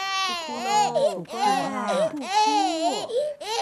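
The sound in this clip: A hungry baby crying after waking, with a few loud, wavering wails in bursts separated by brief catches of breath.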